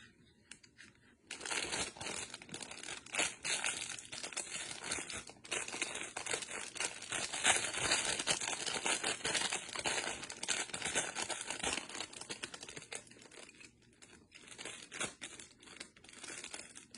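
Thin plastic snack packaging crinkles while being handled and heat sealed, making a faint, sustained crackly rustle of dense irregular crackles that dips briefly near the end.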